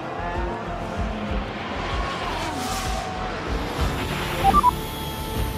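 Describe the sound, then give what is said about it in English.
Formula 1 racing cars braking hard into a turn during a race, a loud high-revving engine drone with a few short sharp peaks near the end. “And as they get into the braking zone, Hamilton is ahead and he's up into the points.”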